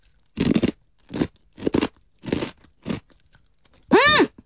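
Crisp crunching as a crunchy yuzu-flavoured peanut snack is bitten and chewed: five distinct crunches in a steady, unhurried rhythm, with quiet gaps between them.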